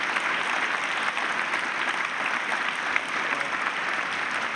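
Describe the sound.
Applause from a church audience at Green Bay Community Church welcoming a guest speaker: a dense, continuous patter of many hands clapping at a steady, fairly loud level for a few seconds, with no single voice standing out.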